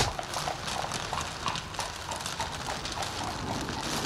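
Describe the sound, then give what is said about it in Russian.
Hooves of horses pulling a cart clip-clop in a steady, continuous rhythm, with many even hoofbeats over a rough rolling rumble and no voices. “Дубровский сел с Гришей в телегу, Антон ударил по лошадям, и они выехали со двора.”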